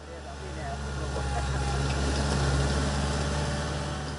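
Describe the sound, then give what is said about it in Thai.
A tractor engine runs steadily during student driving training for plowing farm plots, a continuous low rumbling hum at an even level throughout. “การฝึกขับรถแท็กเตอร์ ไถพรวนแปลงเกษตร และควบคุมการทำงานของอุปกรณ์ต่างๆ ของรถแบ็คโฮ”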